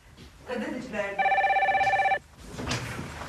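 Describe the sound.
A telephone rings in one trilling electronic burst of about a second, with people talking just before and after it.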